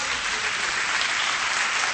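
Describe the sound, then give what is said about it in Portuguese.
A church audience applauds in praise of the Lord during a worship service. The clapping is a dense, even wash of sound that holds steady and loud for two seconds, with no break. “Quem pode aplaudir o Senhor aí, meus queridos?”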